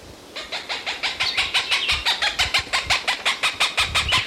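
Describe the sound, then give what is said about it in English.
A Cooper's hawk gives a long, rapid series of sharp, evenly spaced kek notes, loud and piercing, repeating steadily to the end with no voices. “Cooper's Hawk again.”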